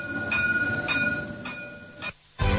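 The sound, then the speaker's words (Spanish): A Tenerife tram runs along its rails with a steady low rumble and a thin, high electric whine. A few rhythmic clicks punctuate the ride before the noise briefly drops away and then returns. “Bueno, me voy a bajar del tranvía”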